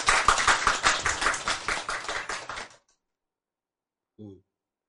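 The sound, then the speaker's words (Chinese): Audience applause at a Buddhist lecture: many hands clap in a dense, loud burst of rapid overlapping claps lasting nearly three seconds, then stop abruptly. A brief, faint low sound follows shortly after the silence. “所以赞不赞？赞，拍手。”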